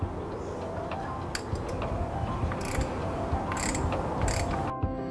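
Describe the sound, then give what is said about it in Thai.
A wrench tightens an engine oil filter by about a quarter turn, giving sparse, sharp ratcheting clicks and small mechanical rattles over a steady noisy background, with no voices. “และทำการขันกรองน้ำมันเครื่องโดยขันกำหนดประมาณเศษ1/4รอบ”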